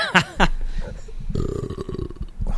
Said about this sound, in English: I've found my pop screen doesn't reflect a burp as well as I thought it would.